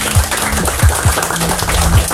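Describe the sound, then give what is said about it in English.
Cheering and clapping from an Amsterdam studio audience welcoming a special guest from Italy, a dense, steady wash of applause with low thumps pulsing underneath. “please, Amsterdam, make some noise for our special guest, all the way from Italy, Federico Cristaudo”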